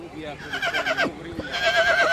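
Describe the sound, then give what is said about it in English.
An Arabian colt whinnies at a horse show, a high, wavering neigh repeated in rising and falling waves, with a voice speaking over part of it. “Back at the horse show, Shaheen, the Arabian colt, just won a gold medal.”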